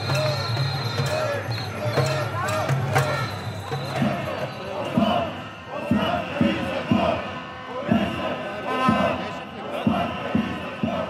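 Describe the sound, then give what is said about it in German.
Street protest crowds in Israel and Bulgaria make a dense, continuous din of shouting and chanting voices, with sharp bursts and thumps throughout. “So hört sich das an in Israel und in Bulgarien. In beiden Ländern gehen die Menschen massiv auf die Straße, weil ihre Regierungschefs korrupt sind und sie wollen sie endlich aus dem Amt jagen.”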